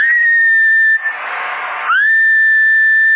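Whistling into a CB radio transmitter gives a steady, loud, high tone. A rush of hiss briefly breaks it midway, then the whistle returns and holds to the end.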